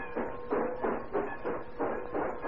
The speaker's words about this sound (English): A few weeks later, Sonia and her maid, Olga, having managed to slip across the Russian border, are on a train speeding toward St. Petersburg and Ivan.